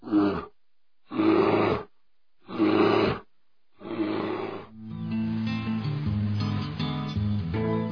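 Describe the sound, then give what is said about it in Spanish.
An Andean bear of the high páramo grasslands roars in three short, rough bursts at an even pace, then gives a fourth longer growl. A sustained tonal backing follows and runs to the end. “El oso andino, el vigilante de los páramos.”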